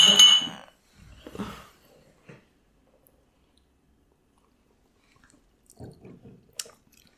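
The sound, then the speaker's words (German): Wine being drunk and tasted: a bright glass clink at the start, then short wet slurps, sips and mouth sounds in a few separate bursts with quiet pauses between them. “Und dann kommt natürlich der allerschönste Schritt, wir müssen trinken.”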